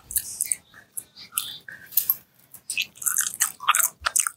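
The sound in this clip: Chewing and crunching on a wet macaroni snack, with many irregular bursts of crisp, bright bites mixed with squishy mastication. The sounds are close and fairly loud, with no talk.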